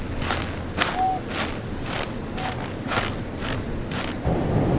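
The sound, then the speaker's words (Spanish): Footsteps walking along a snow-covered roadside by a river, a steady and even series of many soft crunching steps over a constant background noise. “Se detiene en el lugar en el que dejó a Selma a orillas del río, baja del camión y camina.”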